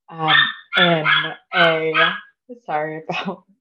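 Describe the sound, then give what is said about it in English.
A dog barking: several loud, tonal, drawn-out barks in quick succession, separated by short gaps. “I have a couple of dogs too, and they're always barking, so I'm totally used to it.”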